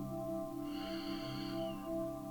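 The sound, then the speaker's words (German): A slow, deep inhale through the nose during a breathing meditation, a soft airy breath lasting just over a second, faint above a steady, gentle tonal drone. “Und dann atme nochmal tief durch deine Nase ein.”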